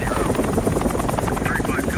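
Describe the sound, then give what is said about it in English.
Helicopters taking off and kicking up thick dust, a loud, steady rotor thrum with fast, even chopping pulses that stays constant throughout. “Taking off, the choppers kick up a thick cloud of dust.”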